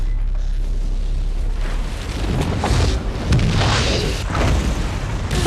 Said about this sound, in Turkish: Büyük bir patlama oldu.